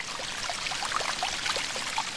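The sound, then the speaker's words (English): Water of the Caño Cristales river in Colombia cascading over algae-covered boulders, a steady, bright rushing hiss flecked with small bubbling splashes, fairly faint and continuous. “This is Caño Cristales, or the Crystal Stream. The pristine water cascades over boulders covered with red and purple algae, giving it a brilliant crimson hue.”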